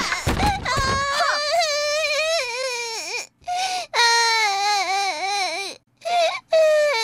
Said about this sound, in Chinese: 乖，不哭不哭，奶妈看看啊。